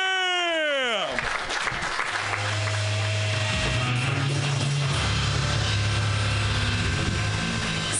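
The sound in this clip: Audience applause for the host at a comedy festival: a short falling whine gives way to a thick, continuous wash of clapping that stays loud and even to the end.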